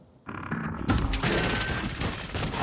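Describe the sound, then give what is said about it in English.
Loud, rapid gunfire from a large black T-600 Terminator robot in a film, coming in abruptly as a dense, continuous burst with a harsh, clattering texture. “It opens fire.”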